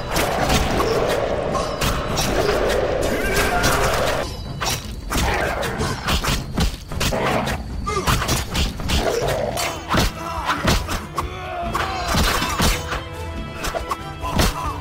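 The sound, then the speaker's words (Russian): Silver-sword combat against monsters in The Witcher video game: a loud, dense stream of slashing hits, thuds and crashing impacts that continues without pause throughout. “Плюс я наконец-то могу показать вам, как ведьмак ловко управляется серебряным клинком, где заметно, как хореография боя очень сильно отличается от боя стальным мечом.”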